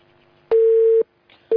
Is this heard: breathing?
no